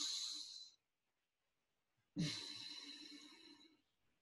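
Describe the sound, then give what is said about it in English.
Deep, slow breaths, soft and airy. One breath trails off at the start, then after a silent pause comes a longer, fuller breath that gradually fades. “I always feel way better after two or three breaths like that.”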